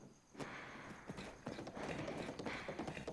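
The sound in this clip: Hooves of a horse ridden in a video game clip-clop in a steady, repeating rhythm, faint but continuous, with no talk over them.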